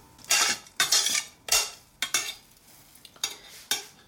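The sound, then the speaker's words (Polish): Toasted seeds are stirred and scraped with a utensil before being tipped into a beetroot, arugula and sun-dried tomato salad. Several sharp, bright scraping bursts come in an irregular rhythm, with no talk. “I za chwilkę przemieszam ziarenka i przerzucę je do, do sałatki.”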